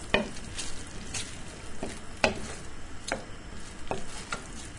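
Food frying in a skillet over medium-high heat after a large amount of cold ingredients was added. A steady crackling sizzle runs throughout, broken by several scraping strokes of stirring.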